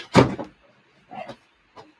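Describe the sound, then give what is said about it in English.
A fridge door is opened to take out a can of Rolling Rock beer, heard as a few soft thumps and light knocks spaced apart, with near silence between them. “Gotta open some rolling rock. Hold on, let me get one out of my fridge.”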